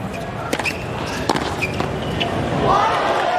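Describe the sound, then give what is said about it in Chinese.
Table tennis ball sounds in a match where a return clips the net and still lands in: a few sharp, light ticks over a background of voices and crowd murmur. “这个球郑瑞的接发球在网带上蹭了一下啊，还是落到了界内。”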